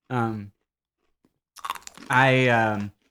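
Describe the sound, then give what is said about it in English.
Fritos corn chips are crunched and chewed. A few crisp crunches fall between humming vocal murmurs of someone eating. “I want to get into the chips.”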